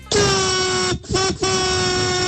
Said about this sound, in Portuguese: A buzina foi legal, o buzinaço hoje, hein?